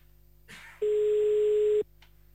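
Ringback tone of an outgoing telephone call, a single steady, moderately loud tone lasting about a second, preceded by a brief burst of line noise and followed by near silence.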